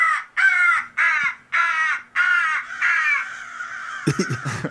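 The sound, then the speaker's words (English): A recorded crow distress call, played to scare birds away, gives a run of about six loud, harsh caws in steady rhythm, the later ones trailing together before a ragged, noisy burst at the end. “you've also got sounds like this one. It's a crow in distress to scare the birds away.”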